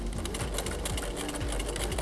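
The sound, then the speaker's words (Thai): A sewing machine stitches a small piece of fabric with a steady, fast, rhythmic mechanical whir that stays loud and even throughout, with no voices. “เดี๋ยวเราเริ่มเย็บกันเลยจับได้ไว้นิดนึงแล้วก็เย็บอีกด้านล่างนะคะ”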